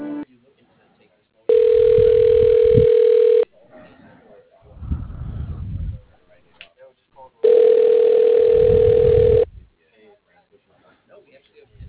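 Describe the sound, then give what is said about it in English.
Ringback tone on an office telephone line while a receptionist transfers a call: two long, steady, mid-pitched tones with a low hum beneath, separated by a brief stretch of voice. “Yeah, hold on just a second while I transfer you.”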